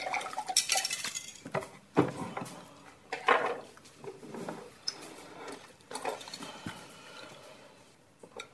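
Cutlery clinks and scrapes on a plate as someone eats a portion of slightly burnt meat. A few sharp, irregular knocks stand out among softer scraping, all fairly faint.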